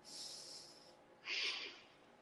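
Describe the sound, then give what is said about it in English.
A person breathing in deeply during a guided breathing exercise. Two soft, airy breath sounds: a longer one first, then a shorter, slightly louder one. The breaths are quiet and no one speaks over them. “so let's breathe in”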